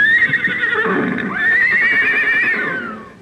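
A horse whinnies loudly at the start of a ride, a long, shrill, quavering neigh that wavers in pitch and trails off toward the end, with no talk over it.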